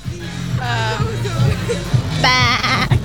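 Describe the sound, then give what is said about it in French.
A person imitates a goat, giving a few wavering, nasal bleats with a pronounced tremble, the last one higher and louder than the rest. “Eh bien, tu as un don pour faire la chèvre.”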